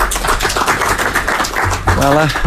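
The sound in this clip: Applause greets the Dinamo coach as he enters a press conference: a dense, steady clatter of many hands runs throughout, with a voice speaking over it near the end.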